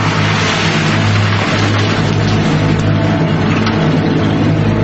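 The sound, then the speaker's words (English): Engine rumble of a beat-up blue truck pulling in front of a motel. A loud, steady, low drone holds at an even level throughout. “Beat-up blue truck pulls in front of the motel.”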